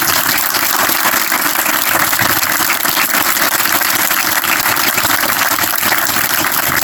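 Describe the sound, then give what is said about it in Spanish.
Steady, dense applause from an audience clapping for a group of young people at an event, loud and unbroken from start to finish, with no voices rising over it. “Así que un aplauso para los”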